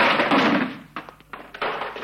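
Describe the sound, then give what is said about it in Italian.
A heavy wooden door is forced open and gives way, with a burst of broad crashing noise followed by a few dull, separate thuds. “I due si gettarono contro il portone che cedette di schianto.”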